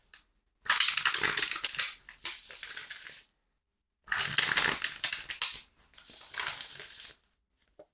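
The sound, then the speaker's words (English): A tarot deck is shuffled before a card is drawn: two long bursts of crisp, papery crackling and rustling, separated by a short pause, with no voices. “let's do what we do and pull a tarot card.”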